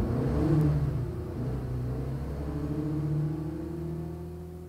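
A car engine, a taxi ordered to Rue de Rivoli, rumbles steadily with a low whirring drone while the vehicle drives off. The sound stays at an even, moderate level throughout, with no voices.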